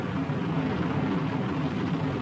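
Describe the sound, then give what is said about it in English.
A rocket's main engine roars at liftoff, a loud, dense, continuous low rumble that stays steady throughout. “Main engine start, command. 3, 2, 1, engine. Lift off. Main engine is at nominal thrust.”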